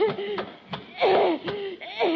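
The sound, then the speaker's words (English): A boy choking and gasping, performed by an actor: a few strained, rasping, voiced gasps and wheezes, rising and falling, with short harsh bursts between them. “Marjorie, don't stand there while your brother's choking to death.”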